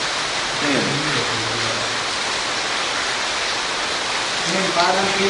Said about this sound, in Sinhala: හැබැයි දැන් වැස්ස කමන්නේ නැද්ද?